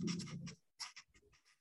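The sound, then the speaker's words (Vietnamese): Faint scratchy strokes of an eye being drawn on a board during a lecture, a few short rasping bursts with brief pauses between them, heard alone without speech. “cái này chúng ta vẽ con mắt cái là người quan sát”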